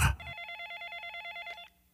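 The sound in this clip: Telephone ringing: one burst of rapidly pulsing, high electronic trill tones, steady and fairly loud, which cuts off abruptly.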